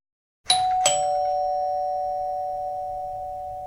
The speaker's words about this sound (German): An der Tür klopfen. Und an der Tür klingeln.